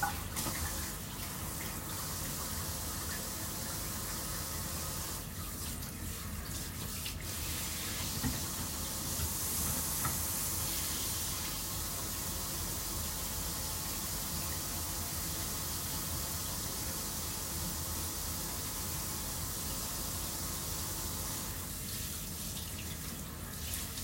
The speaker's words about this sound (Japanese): 洗面台で洗ってる。